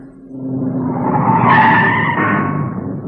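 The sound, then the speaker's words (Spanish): A car skidding on an icy road, its tires letting out a loud continuous screech that builds, peaks about halfway and then eases, over a low engine rumble, with no voices. “que se va el coche. Con ese hielo nos vamos a la cuneta. Tranquila, está patinando un poco.”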